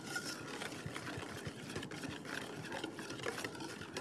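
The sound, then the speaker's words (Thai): Stirring a mixture as water is added a little at a time and worked in until it blends smooth, giving a steady, busy swishing and scraping that runs without a break and with no voices. “จะต้องกวนให้เข้าเป็นเนื้อเดียวกันแล้วค่อยเติมลงไปอีกนะคะ”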